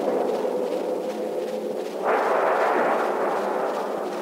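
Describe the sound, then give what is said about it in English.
A ship's gun fires and a direct hit blows up an enemy ship: a deep boom about halfway through swells into a broad, sustained roaring rumble over a steady background noise. “A direct hit. She's blown to pieces. Fire! Where's the man that fired that shot?”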